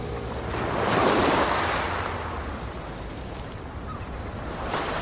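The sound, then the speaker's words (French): Ocean waves wash and roll in a steady sound effect, a broad hiss of surf that swells around the first second and then settles into a continuous, even wash. No voices are heard. “Je crois que je vais ajouter un peu plus de mouettes. Je peux aussi ralentir les vagues.”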